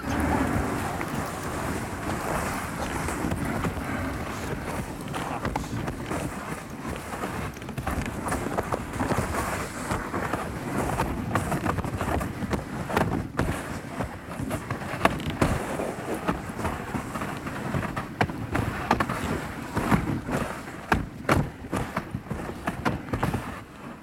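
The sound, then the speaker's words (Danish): Wind rising toward a stiff gale around midnight near a hunting hut, a dense, roaring rush that buffets the microphone with gusty thumps and stays loud and rough throughout. “Om aftenen hen ad midnat stiger blæsten til stiv kuling, og vi bliver tvunget til at køre ind til fangsthytten.”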